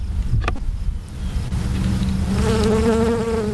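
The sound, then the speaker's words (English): A honeybee buzzes with a steady, nasal droning whine made of stacked tones. It comes in clearly partway through, loud over a rough background noise, and holds an even pitch to the end. “it could tell you that's a honeybee.”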